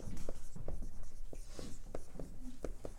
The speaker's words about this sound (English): Let me write this.